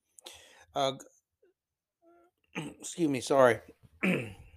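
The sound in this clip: Someone clearing a tickle from their throat in a rough, gravelly burst, with a short silent pause before speech follows.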